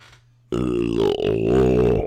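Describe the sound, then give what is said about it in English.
A long, loud burp sounds right up against the microphone. It is deep and throaty with a rough, buzzing tone, rises abruptly after a brief quiet start and holds for well over a second before cutting off. “Please stop leaning into the fucking mic when you burp.”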